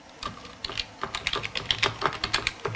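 Rapid typing of a terminal command on a computer keyboard: many light, crisp keystrokes in quick bursts, with no voices.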